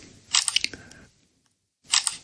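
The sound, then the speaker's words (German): Two short bursts of quick clicks, like a camera shutter, as a photo is taken of a gift box, separated by a near-silent pause. “Ich mache mal schnell ein Foto von dieser tollen Box.”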